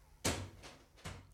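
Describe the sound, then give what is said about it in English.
A door slams shut: one loud, heavy thud, then a couple of softer knocks and bumps trailing after it, with no talk over them. “Now remember to slam the door”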